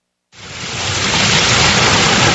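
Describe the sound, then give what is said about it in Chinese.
River water rushes out as a raised electronic sluice gate opens at a Yarkand River intake in Xinjiang. A dense, loud roar starts abruptly after a brief silence, swells slightly, then holds steady with no voices. “随着艾里克塔木取水的电子闸门缓缓抬升，塔里木河的最长源流叶尔羌河河水奔涌而下”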